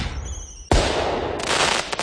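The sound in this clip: Firework exploding: a high thin whistle, then one sudden loud blast that gives way to sustained rushing noise and crackle, with no voices.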